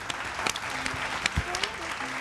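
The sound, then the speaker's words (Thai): Children clap for themselves in a drawing class with parents present: a lively, scattered round of applause with sharp individual claps poking through, lasting the whole moment. “เอาปรบมือให้ตัวเองด้วยครับเก่งมาก”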